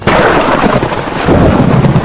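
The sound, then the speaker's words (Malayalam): Heavy rain pours down with a loud, continuous rumbling roar of thunder, a dense, steady wash of sound that never lets up. “മഴ ഭൂമിയിൽ പെയ്തിറങ്ങി.”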